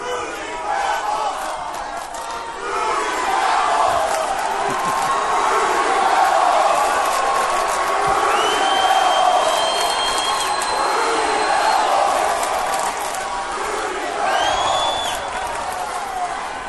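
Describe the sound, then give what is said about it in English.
Wrestling crowd chanting in unison, a loud, sustained roar of many voices with cheering mixed in, holding steady from start to finish without a break. “damn, I love that chant. I mean, really, that's a good one.”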